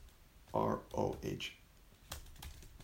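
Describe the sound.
Typing on a computer keyboard: a few soft clicks and taps with brief vocal sounds mixed in, followed by a sharper click and a quieter stretch.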